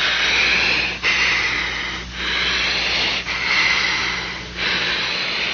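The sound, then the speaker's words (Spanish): Deep breathing by a patient during a medical procedure, with something placed over the face: slow, airy rushes of air in several steady inhale and exhale cycles, with no talk. “Y quiero que respires bien profundo.”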